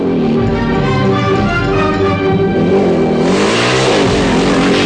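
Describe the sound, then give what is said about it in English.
A motorbike engine roars loudly and continuously, ridden hard and accelerating along a flat stretch between two fences, with the revving becoming more agitated toward the end. “He lands safely, roars along between the two fences and sees soldiers running towards him. He swings the bike round again, back along the flat stretch between the fences.”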